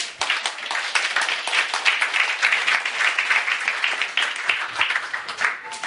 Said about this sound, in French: Quelqu'un peut acclamer le Seigneur.